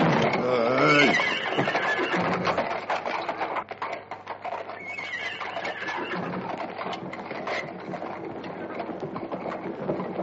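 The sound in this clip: A horse whinnies near the start, a rider's mount heard as a harmonic neigh over a dense, steady bed of noise that fills the whole clip.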